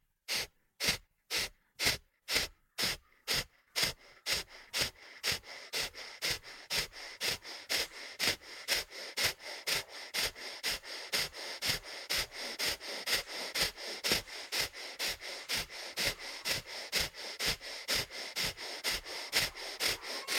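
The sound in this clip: Rapid rhythmic breathing in a guided breathwork round: many quick, forceful breaths in a steady fast pulse. They are distinct at first, then run together over continuous airy noise.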